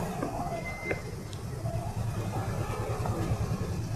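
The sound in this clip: Car engines idle in a traffic jam on a narrow street, a steady low rumble that holds level throughout with faint tonal traces above it.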